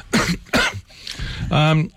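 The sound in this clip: Two harsh, noisy coughs in quick succession, each a short loud burst, followed by a brief stretch of voiced talk.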